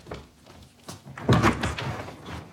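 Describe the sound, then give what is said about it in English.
A door opening to let someone in, heard as a few soft knocks and thumps of handling with a louder clunk near the middle, fairly faint overall. “She lets Ian in.”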